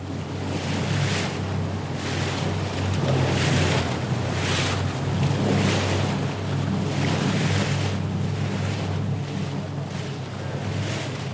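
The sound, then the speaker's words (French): Rough sea surf and wind around a barge crossing toward shore at Fatu-Hiva in the Marquesas. A continuous loud rush of waves swells and eases every second or so over a steady low hum, with no talk. “c'est par barge que l'on gagne la terre ferme, et comme la mer est agitée, ce qui est souvent le cas ici, elle nous offre de rafraîchissants embruns.”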